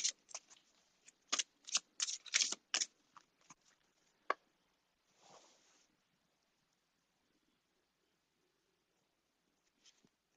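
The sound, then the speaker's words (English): Oracle cards from the Soul's Journey deck being shuffled in quick, papery bursts of riffling and flicking, then a softer rustle as a card is picked, followed by near silence. “And so the next card I'm going to pick is from the Soul's Journey.”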